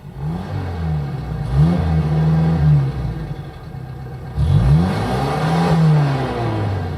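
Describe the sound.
A car engine revs as a sound effect in a 1972 radio play. It is loud and steady, with the engine note swelling up and sliding back down in two main surges over a continuous motor hum.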